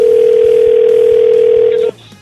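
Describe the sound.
A telephone call ringing on the caller's end: a single steady, loud electronic ringback tone that holds for about two seconds and then cuts off abruptly.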